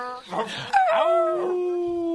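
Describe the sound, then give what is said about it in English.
A person's voice imitates a big dog: a few short, gruff barking sounds, then a loud howl that starts high, slides down and holds a long steady tone. “Now be a big doggy barking. Howl at the moon if you want to.”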